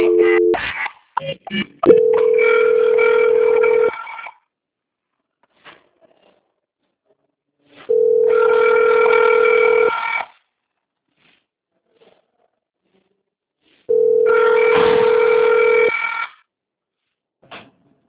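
A telephone rings while a call is transferred: quick tones at the start, then three long electronic ring bursts of about two seconds each, separated by silent gaps.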